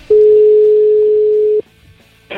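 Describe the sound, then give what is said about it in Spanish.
A telephone dial tone sounds as a call is placed: a loud, steady single-pitch tone holds for about one and a half seconds, then cuts off abruptly into near silence before a short burst at the end. “Va a entrar una llamada de un compañero que se encuentra en estos momentos en Neptuno, en Madrid”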